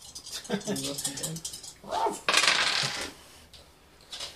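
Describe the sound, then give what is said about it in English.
Three six-sided dice are rolled during a tabletop roleplaying game, giving a short burst of rattling clatter on a table. The clatter follows people talking. “Yay, so that's going to be 3d6. You want to help? You know how to roll dice?”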